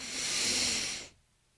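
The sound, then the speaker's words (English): A single deep inhale through the nose during a guided breathing exercise: a smooth, breathy hiss of about a second that fades into near silence. “go ahead and take a breath. So we'll inhale”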